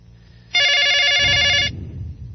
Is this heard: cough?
no